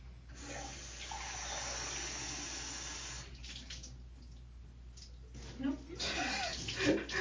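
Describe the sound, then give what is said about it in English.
Running water from a tap as the side of a chest is rinsed off, a faint, steady hiss that continues throughout, with voices talking over it toward the end. “I'm just rinsing off the side of the chest so that it doesn't stain.”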